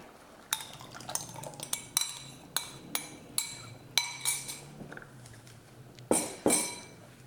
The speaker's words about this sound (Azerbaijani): yoğurdu tökürük.